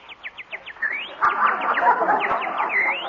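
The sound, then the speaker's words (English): Small bird singing: a quick run of short, high chirps followed by a rising whistle, with further chirps continuing over a dense, noisy background. “Ah, listen to that little birdie singing.”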